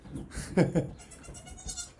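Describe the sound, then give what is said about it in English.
A baby goat bleats once among other goats as kids suckle. The cry is short and wavering and stands out over soft background noise. “My son is very impressed with your baby goat. Oh, that's just... I'm surrounded by them.”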